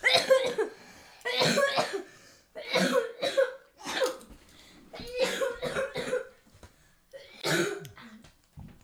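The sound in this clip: Someone coughs hard and repeatedly after a piece of cinnamon sugar Flamin' Hot Cheetos popcorn catches in the back of the throat, with many harsh bursts in uneven clusters and short pauses between them.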